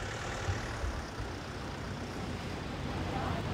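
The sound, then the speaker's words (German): A delivery van drives off, a steady engine and road rumble with broad noise that stays at an even level throughout. “Der Fahrer vom Lieferwagen fährt noch rechtzeitig weg.”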